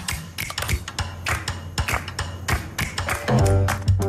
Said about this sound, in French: Vous les entendez, les dentiers qui claquent? Les genoux qui s'entrechoquent?